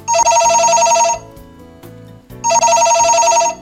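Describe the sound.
Ringback tone of an outgoing phone call to an appliance expert: two long, loud electronic rings with a steady buzzing pitch, separated by a pause of just over a second.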